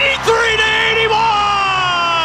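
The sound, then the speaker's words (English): A basketball crowd roars and yells after the Golden State Valkyries win a WNBA playoff game 83-81 to reach the Finals. The loud, sustained cheering runs under an excited voice. “And listen to this crowd. Four wins away from a championship.”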